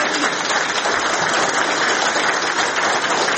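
Applause from an audience at an award ceremony honoring a military commander: dense, steady clapping that stays loud and even throughout, with no clear breaks.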